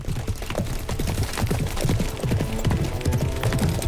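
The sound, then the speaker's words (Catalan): Horses gallop as a mounted leader and five soldiers ride up, their hooves pounding in a dense, continuous patter of many quick thuds at a fairly even, loud level throughout. “El galop arriba en Garau acompanyat de 5 soldats.”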